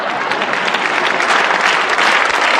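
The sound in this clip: Applause from an audience, dense and steady, a continuous wash of many hands clapping at an even, fairly loud level throughout, with no talk over it.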